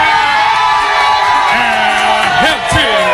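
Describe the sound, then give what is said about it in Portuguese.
A small crowd gathered at a listener's home in the south zone of Porto Alegre cheers loudly throughout, with whoops and shouted voices rising above the steady roar near the end. “Os aplausos são pra Mel! É gloriosa!”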